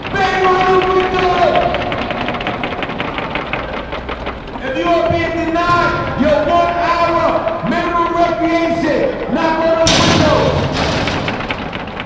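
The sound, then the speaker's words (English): Inmates bang on the windows of a detention facility, producing repeated dull thuds in irregular bursts, loud and layered under sustained shouting and chanting voices from a crowd outside. “That's the sound of inmates inside Metropolitan Detention Center banging on the facility's windows in response to protesters asking about the conditions.”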